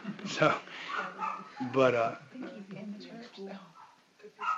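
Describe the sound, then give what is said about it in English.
A dog barks and yips in a few short, sharp bursts, mixed in with a person talking steadily over it. “And that's just a dog, guys.”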